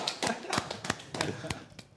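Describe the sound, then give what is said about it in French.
Scattered claps from a small group at an evening pizza get-together, quiet and irregular, with sharp separate slaps spaced unevenly rather than a continuous ovation. “Applaudissons Barry. Bravo Barry.”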